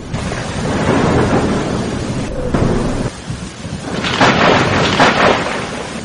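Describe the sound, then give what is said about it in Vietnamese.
Heavy rain pours down during a night thunderstorm, a loud, dense roar of falling water with deep thunder rumbling through it and swelling to a stronger crack and rumble near the end. “Ngoài cửa sổ vang lên tiếng sấm, ánh chớp trắng bạc tựa như thanh kiếm sắc chọc thủng bầu trời đêm, mưa to như trút nước.”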